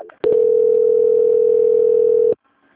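A telephone line tone plays during a call transfer: one loud, steady, unbroken tone lasting about two seconds that starts and stops abruptly, with near silence before and after.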